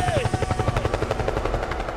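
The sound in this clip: Helicopter effect in a funk mix: rapid, steady rotor-like chopping pulses over a pounding beat, with a descending tonal swoop near the start.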